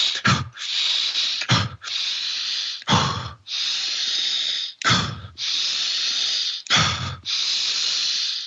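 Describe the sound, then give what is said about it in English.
Very deep, aggressive diaphragmatic breathing: five sharp, forceful breath bursts alternate with long, airy hissing breaths in a steady cycle, loud and close, with no talking. “What it is, it's a very deep diaphragmatic breath, very aggressive, where you're oxygenating. It's it is, I'll do it very quickly, but”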